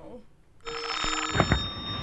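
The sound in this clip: A telephone rings with a steady electronic tone that starts abruptly partway in and continues, fairly loud, to the end.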